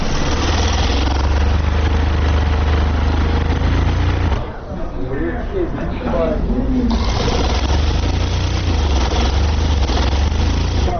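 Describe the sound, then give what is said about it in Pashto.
Sewing machines whir steadily in a tailor's shop where pakol hats are being stitched. The dense mechanical hum runs throughout, thinning briefly in the middle, with a voice speaking over it. “هر یو په خپل ماشین او کار سر ټیټ کړی او مخې ته پراته تاو شوي پکولونه ګنډي”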